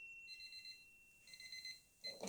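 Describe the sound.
A kitchen timer rings for broccoli roasting in the oven, giving faint bursts of rapid, high-pitched beeps in repeated groups with short gaps between them.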